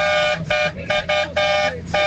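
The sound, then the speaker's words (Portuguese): Car horns honking in a buzinaço, a mass honking on the Dutra highway: many loud, sustained blasts come in quick succession with short gaps, their tones overlapping. “Tamo aqui na Dutra, lá vai o buzinaço. Vai.”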